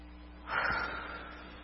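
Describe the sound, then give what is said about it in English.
A single deep breath drawn in: a loud, airy rush that swells quickly and then fades slowly over about a second, with no talking. “But right now I want everybody to take a big breath with me.”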